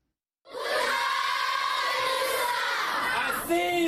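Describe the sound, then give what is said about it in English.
Primary school children at Minawawa refugee camp in northern Cameroon sing together to welcome a visiting Nigerian minister. A loud, sustained chorus of many young voices bursts in after a brief silence and holds steady throughout. “Primary school kids at the Minawawa refugee camp in northern Cameroon sing to welcome Nigerian Interior Minister Abdurrahman Dambazaw”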